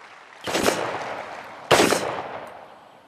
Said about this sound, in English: Gun range near St. Louis, Missouri.